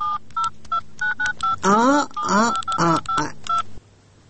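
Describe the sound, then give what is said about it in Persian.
Rapid run of many short keypad beeps as a telephone number is dialed to reach a government office, followed by a voice talking over a few more beeps. “این سب ما زنگ میزنم، این سب.”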